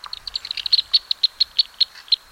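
Black swift calls: a rapid series of sharp, high chirps that are fairly even in pitch and come at wider intervals toward the end, with no other sounds.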